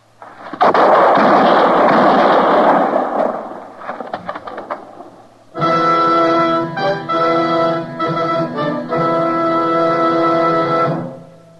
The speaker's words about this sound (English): The shots, Matt. I see Clegg still lying there.